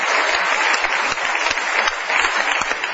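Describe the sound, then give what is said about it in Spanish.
Audience applause fills the stretch with steady, dense clapping, loud and continuous from start to finish, with no voices over it. “Un aplauso muy grande para el querido”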